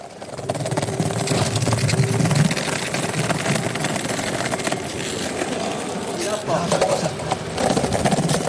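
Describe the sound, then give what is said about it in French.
A skateboard rolling over the city cobblestones of Fribourg: a loud, steady, gritty rumbling roar with a buzzing texture that drops away briefly near the end, then resumes. “Là, ce sont les pavés de la ville de Fribourg.”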